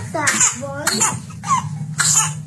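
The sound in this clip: An infant with whooping cough coughs in a run of four harsh, high-pitched bursts, each with a sharp strained onset and raspy tail, at roughly half-second gaps and fairly loud over a low steady hum.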